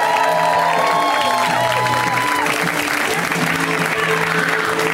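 An audience at a comedy show applauds and cheers for a comedian, steady heavy clapping with whoops and shouts rising above it throughout.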